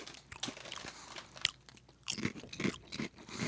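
Crisp crunching of spaghetti-sauce-flavored, Ruffles-style potato chips being bitten and chewed. A quiet, uneven series of crackling bites comes in short bursts, with no talk.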